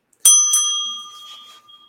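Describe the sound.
Notification bell sound effect: two bright metallic dings in quick succession, each ringing out with clear sustained tones that slowly fade over more than a second.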